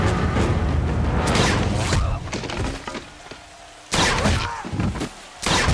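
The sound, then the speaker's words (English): Gunfire from a soldier's weapon on a watchtower at night: sharp, loud impacts break through a dense, noisy background, followed by several separate, abrupt bursts with short gaps between them. “On the watchtower, Schoolboy has a soldier in the sights of his weapon. His watch shows 2 a.m. He fires.”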